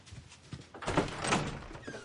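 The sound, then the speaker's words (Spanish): A door being opened at a house, heard quietly as a few soft knocks followed by a muffled, swelling scrape and thump. “Va a la puerta.”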